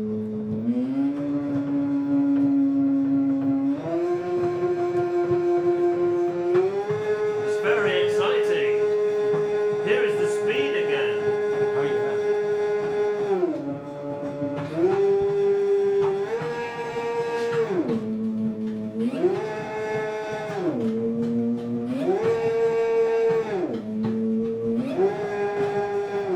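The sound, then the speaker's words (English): A Russolo intonarumori noise instrument, the ululatore acuto or high howler, gives a sustained buzzy howling tone that steps up in pitch, then glides up and down repeatedly as its lever is moved. “It says Russolo... Ululatore acuto. Meaning? High howler. Here we go.”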